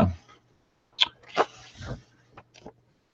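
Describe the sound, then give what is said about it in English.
A dog makes a few short, sharp snorting or yelping bursts over a low steady hum, with quiet gaps between them. “There's Loki Dog in the background.”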